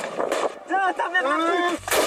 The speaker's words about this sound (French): Allez les gars, tir de GM2A, l'objectif des manifestants.